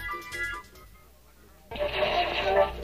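A radio playing while its listeners search for a show in an audio drama. A brief tonal stretch drops away, then a sudden burst of hissing static runs to the end.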